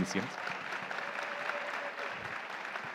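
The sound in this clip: Audience applause for a team member at a bilingual gathering: a dense, steady wash of clapping from start to finish, with voices mixed in underneath.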